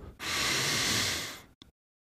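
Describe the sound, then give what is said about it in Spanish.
Deep inhalation during a breathing exercise: one long, steady, airy intake of breath, holding a smooth hiss for over a second before tapering off, followed by a brief soft puff of air and then silence. “Enfócate en la inhalación, principalmente. La primera, inhala profundo. Y exhala. Inhala profundo.”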